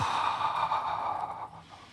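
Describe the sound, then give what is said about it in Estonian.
A long, breathy exhale during a breathing exercise with massage, heard alone as a steady airy rush that fades toward the end. “Ma hingan siin sisse ja siin hingan välja.”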